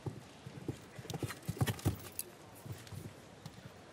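Hooves of a ten-year-old show jumping horse clip-clop in a faint, uneven run of soft thuds, with a few stronger strikes bunched in the middle.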